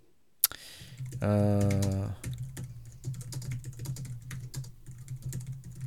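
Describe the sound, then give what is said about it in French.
Fast typing on a computer keyboard: many rapid, crisp key clicks in an uneven run that continues steadily to the end, with no talking. “je tape plus vite que mon ombre”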